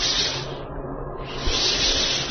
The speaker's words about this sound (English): These are firebombs, hissing and flaming down out of the sky.